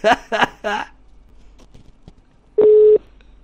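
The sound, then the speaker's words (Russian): Telephone tone while dialing to call back a debt collector: a single steady mid-pitched beep, heard after a man speaks a few quick syllables. “я сейчас перезвоню этой хуйне”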